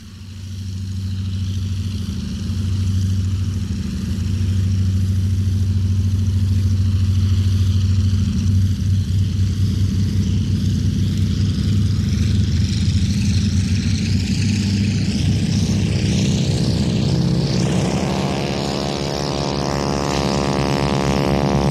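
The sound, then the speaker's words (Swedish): Piston engine of an Sk 16 trainer aircraft runs with a loud, steady low rumble for a long stretch, then rises in pitch near the end as it revs up. “Så får vi göra starten med Björn Löfgrens 2 SK-16, FUZ och CHP.”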